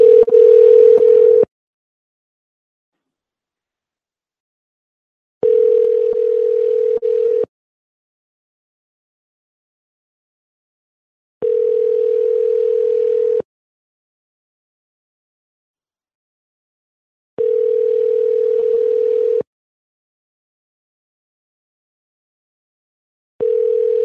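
Telephone ringing tone heard while placing a call: a steady mid-pitched tone in bursts of about two seconds separated by long silent gaps, repeating five times with the last burst cut off.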